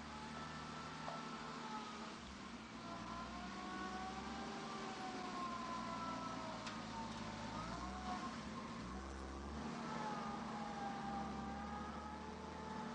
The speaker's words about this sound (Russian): Грузовик проезжает по дороге через лес.